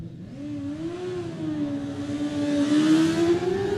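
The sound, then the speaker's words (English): Engine of a carburettor Yamaha YZF R6 racing motorcycle setting off at a road race on the Isle of Man, a buzzing whine that climbs steadily in pitch and grows louder as it accelerates. “on the Tony Leach Jewelry, the YZF R6 machine. They started making these up to 2002, carb models only. Get ready to go.”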